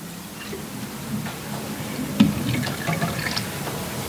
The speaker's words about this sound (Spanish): Está aquí el ácido, el poliacrilato de sodio del pañal. Entonces, si le voy agregando agua,